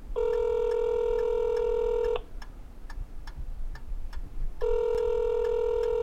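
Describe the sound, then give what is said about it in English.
A telephone is dialed: a steady electronic tone stops, a quick run of sharp clicks follows, and then the same tone returns. No voices are heard. “He reached for the telephone and dialed the number of Larry Long, Attorney General.”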